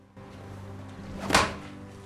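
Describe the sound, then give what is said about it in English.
A woman strikes a wall, making one dull, solid thump about two-thirds of the way through, set against a steady low background drone. “When he's gone, she hits the wall.”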